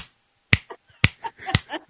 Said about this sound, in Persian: میگه این چیه؟ بشکم میزنه.